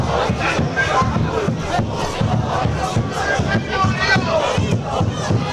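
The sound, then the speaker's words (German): Football supporters in the fan end chant and cheer as their side leads 5-0, a loud, dense roar of massed voices with a steady rhythmic pulse running under it. “Hörst du das? Das ist geil, ja? Die tollen Fans. Oh. Die geben richtig drauf, ja? Die geben Gas, ja.”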